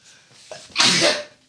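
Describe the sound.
A single human sneeze: a faint breathy intake builds to one loud, hissing burst that quickly trails off into silence.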